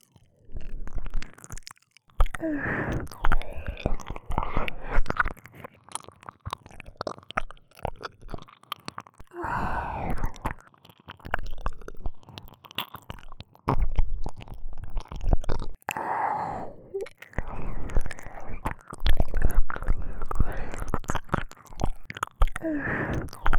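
Wet, close ASMR mouth sounds of ear-eating, with soft chewing, nibbling and squishing in irregular bursts separated by short quiet gaps.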